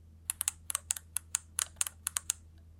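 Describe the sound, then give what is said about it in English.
Game controller buttons click loudly in a rapid, irregular run of many sharp, crisp snaps, sometimes in quick pairs, with no voices heard. “It's the loudest controller you've ever heard in your life.”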